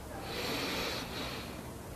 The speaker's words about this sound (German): Wir nehmen den ersten tiefen Atemzug und atmen ein